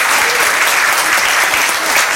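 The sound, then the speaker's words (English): An audience gives a round of applause to a man, a loud, dense and steady clapping that fills the whole stretch. “Let's give William a round of applause here.”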